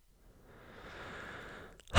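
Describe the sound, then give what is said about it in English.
A single long, deep breath drawn steadily and softly, a breathy hiss that swells gently and holds before fading, with no talking. “Deep breath.”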